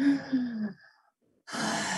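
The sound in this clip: A voice imitates the short, shallow breathing of a short-winded person: a brief voiced gasp, a short silence, then a breathy rush of air, fairly loud with no other sound.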